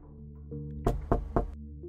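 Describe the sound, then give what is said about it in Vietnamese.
Three dry knocks on a door, evenly spaced and fairly loud, over a low sustained tonal hum. “Vẫn không có tiếng trả lời, mà chỉ có ba tiếng gõ cửa vang vọng ra, nghe khô khốc ớn lạnh.”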